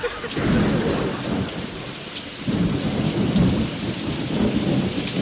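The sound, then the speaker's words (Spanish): Summer rain and a thunderstorm in Palma de Mallorca: a loud, continuous rain hiss over deep rolling thunder that dips briefly midway, then swells again. “Y encima esto, la lluvia pertinaz. Desde luego, qué asco de... ¡Oh, tormenta!”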